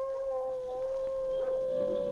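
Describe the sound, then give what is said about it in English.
A gray wolf gives an eerie howl of victory after a fight: one long, sustained, fairly faint tone that holds a steady pitch throughout. “A moment later, the gray wolf stood over his vanquished foe and gave vent to an eerie howl of victory.”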